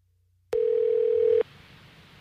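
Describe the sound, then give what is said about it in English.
A steady telephone line tone sounds as a number to New York City is dialed: one loud, unbroken tone lasting about a second, then it cuts off, leaving a low hiss. “Are we dialing? Because I do not hear that number. It's dialed.”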